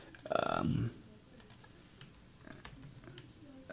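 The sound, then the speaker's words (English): Typing on a computer keyboard: a short louder burst opens, then faint, scattered key clicks tap along quietly at an uneven pace. “So anyway, let me just type this into the computer.”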